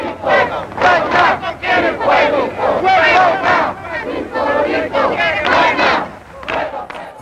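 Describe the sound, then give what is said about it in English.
A crowd chanting in a Young Lords protest march for Puerto Rico, many voices shouting the same short phrase in loud, regular rhythmic bursts. “In this march, you can hear that they're telling Puerto Ricans to wake up so that they realize the oppression that they're facing.”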